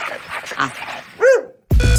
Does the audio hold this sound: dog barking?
yes